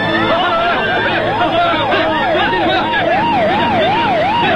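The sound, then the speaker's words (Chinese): Police car sirens wail loudly and without a break, their pitch swinging up and down in a steady, repeating rhythm. Several siren tones overlap over a murmur of crowd voices. “有很多警车”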